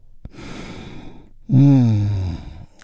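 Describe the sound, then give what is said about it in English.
A big, deep breath is drawn in with a long, airy inhale during a guided relaxation. After a short pause it is released as a loud, voiced sigh that eases slightly downward at the end. “And we begin by taking a big, deep, healing breath all together. Here we go. And release.”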